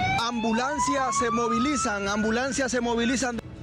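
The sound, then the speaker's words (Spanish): An ambulance siren wails as crews head across the Community of Madrid during wildfires. Its steady tone slowly rises in pitch, with a person talking over it throughout. “ambulancias se movilizan a distintas partes de la comunidad de Madrid”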